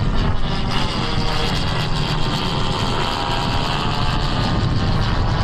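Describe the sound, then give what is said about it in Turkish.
Engine roar of an Akıncı drone taking off from a runway at Çorlu, Tekirdağ. The loud, dense, continuous drone carries a propeller hum and stays level throughout. “Akıncı Tekirdağ Çorlu'daki pistten bu kez Roketsan'la STM yapımı Alpagut mühimmatıyla havalandı.”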